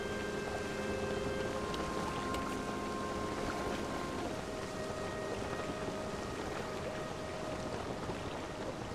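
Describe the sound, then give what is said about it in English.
Wind gusting a boat across water in a video game, a soft, unbroken rush of wind and water with faint sustained tones layered over it, steady throughout. “Now we're on the boat as it gets gusted across the water.”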